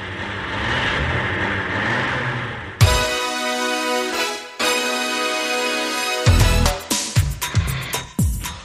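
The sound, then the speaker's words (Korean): A car engine starts with an abrupt burst, then settles into a steady running drone. Near the end it gives several short, sharp revs, loud and with no talk over it. “차에 시동 걸었습니다. 벌써 떠납니다.”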